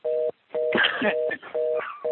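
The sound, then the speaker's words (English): An off-the-hook telephone tone sounds during a meeting, a steady mid-pitched beep pulsing on and off repeatedly, with bursts of rustling noise between and over the pulses. “Who's got their phone doing that? Please stop. It's got to be somebody who's hung up and don't know it.”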